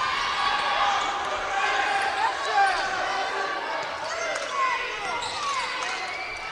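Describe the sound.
A basketball is dribbled down court during a game, its bounces mixed with squeaking sneakers and voices in the background.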